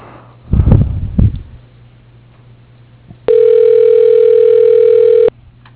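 A telephone ring tone sounds as a call is transferred to voicemail: one steady, even two-second tone that follows a brief rustling noise and quiet.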